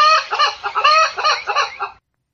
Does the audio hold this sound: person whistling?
no

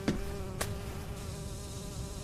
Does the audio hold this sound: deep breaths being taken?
no

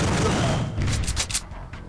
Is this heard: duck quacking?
no

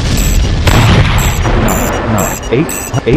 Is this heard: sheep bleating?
no

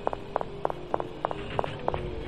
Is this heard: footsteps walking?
yes

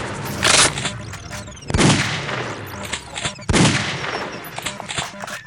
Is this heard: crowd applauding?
no

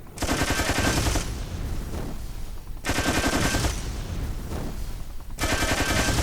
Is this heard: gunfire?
yes

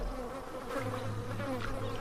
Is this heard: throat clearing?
no

